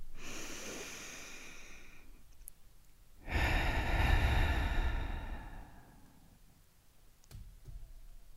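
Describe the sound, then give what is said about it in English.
One person's deep breath in, a long airy inhale, followed after a short pause by a louder, fuller breath out that slowly fades. Faint background hiss fills the gaps. “Let's take our traditional breath in and breath out.”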